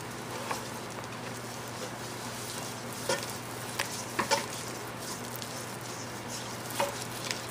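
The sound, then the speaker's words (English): Flour being stirred into melting fat in a pan to start a white sauce: a faint, steady sizzle with a few soft scrapes and light clicks of stirring. “Okay, so we're gonna let this melt just a little bit. To this, we're gonna go ahead and add our flour.”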